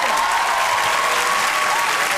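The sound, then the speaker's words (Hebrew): Audience applause at a stand-up comedy show, cheering a birthday guest. A dense, steady clapping wash holds at the same loudness throughout, with no pauses. “איפה כפיים לשיר?”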